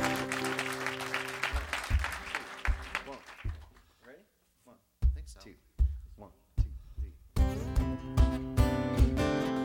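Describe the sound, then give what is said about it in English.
Audience applause welcoming a band onto WFPK's Live Lunch, a brief burst of clapping at the start that quickly gives way to people talking and scattered sounds. “Let's welcome them to WFPK's Live Lunch.”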